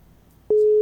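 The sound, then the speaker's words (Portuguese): A telephone calling tone while someone is being called. A single steady, pitched tone starts abruptly halfway through and carries on alone to the end. “Vamos lá ver se o Valdir atende agora a nossa ligação, o nosso contato, para que a gente possa falar rapidinho com ele aqui no nosso programa de rádio”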